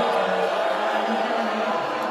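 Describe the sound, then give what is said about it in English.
A crowd at an election-night party booing the Democratic House leader as he appears on screen, a steady, continuous low drone of many voices with no breaks. “There he is. I don't think they like him. They're booing him.”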